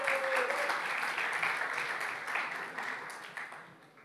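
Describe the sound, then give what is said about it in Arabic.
An audience applauds performers after a hymn at a church gathering, with dense, steady clapping that gradually thins and fades toward the end. “ممكن نديهم سقفة يا جماعة”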